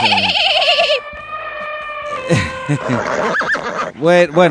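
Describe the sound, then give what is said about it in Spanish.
A donkey sound effect is played on the radio, a wavering braying cry at the start, followed by voices talking. “Ramona, póngale a un burrito, póngale algo a este.”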